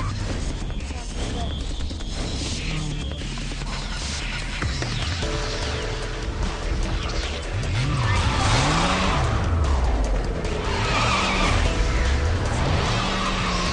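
A motorcycle engine in an Assassin's Creed video game cutscene revs in repeated rising and falling sweeps, with skidding tires and dense, loud action sounds throughout.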